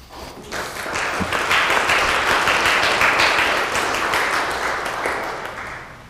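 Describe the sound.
A church audience at Christ Community Church applauds to welcome its bishop, a full, steady patter of many hands that swells in quickly after a brief start and stays level before easing slightly at the close.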